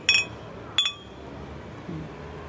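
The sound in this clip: Beer glasses clink together in a toast at a bar late at night: two bright, ringing clinks less than a second apart, then a low background murmur.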